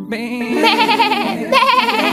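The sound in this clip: Young goats bleat in a forest setting, giving two loud, wavering, nasal bleats one after the other, the second starting abruptly after the first, with no talk.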